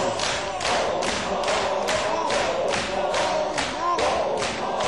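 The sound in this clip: Mourners beat their chests in a Shia mourning ritual. The thuds are many, steady and evenly spaced, about two a second, under voices chanting together.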